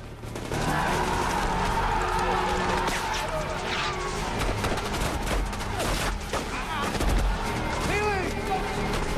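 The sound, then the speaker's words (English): Gunfire as SEALs lay down covering fire while falling back behind refugees: repeated bursts of shots and sharp cracks over a continuous rumble, loud throughout. “The SEALs lay down some covering fire and start to fall back behind the refugees.”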